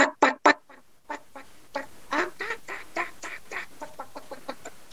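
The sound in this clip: A human voice imitating a wild turkey hen's yelping call as she searches for a tom: three loud, sharp yelps, a short pause, then a long run of many quicker, softer yelps.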